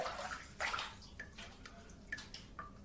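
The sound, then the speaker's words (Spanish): Water dripping incessantly from a faucet: a few bright, plinking drops fall at irregular intervals over a faint wash of running water, all quiet. “Mientras el grifo enfocado en primer plano gotea incesantemente, el hombre se sienta.”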